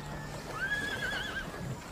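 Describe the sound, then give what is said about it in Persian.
A horse pulling a carriage neighs as the carriage stops: one drawn-out whinny that wavers up and down for about a second, over a low steady background. “کالسک وای میسته.”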